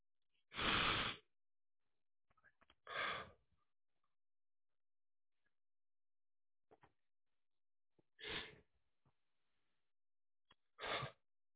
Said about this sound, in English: At this time, I invite you to join me in taking three slow breaths.